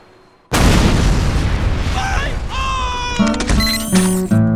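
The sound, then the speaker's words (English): A heavy-caliber tripod-mounted gun opens fire with a sudden, very loud blast after a brief quiet moment, then keeps up a dense, sustained roar of shots. “This heavy caliber tripod mounted little old number designed by me. Built by me. And you best hope not pointed at you.”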